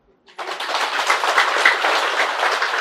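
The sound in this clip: Audience applause at a Buddhist dharma talk on keeping the five precepts: dense, steady clapping that starts abruptly after a brief near-silence and holds at an even level to the end.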